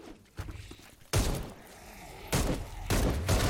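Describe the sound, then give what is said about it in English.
Gunfire from weapons in a video game, with a few sharp, loud bursts of shots separated by quieter stretches of softer thuds. “Bunch of weapons with different types of ammo, too. Just be careful not to waste too many bullets while you're having fun.”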